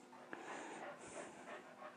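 A dog pants steadily, quick breathy huffs repeating in an even rhythm throughout, moderately loud, with no voices.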